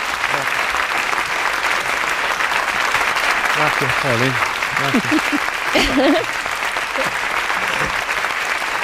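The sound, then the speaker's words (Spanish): Sustained applause from a studio audience greeting a legendary Spanish singer, who stands bowing with arms crossed, steady and dense for the whole stretch while voices call out over the clapping. “Rafael está usando el truco de quedarse estático, haciendo reverencia al público con los brazos cruzados, en forma de Drácula, alargando el aplauso.”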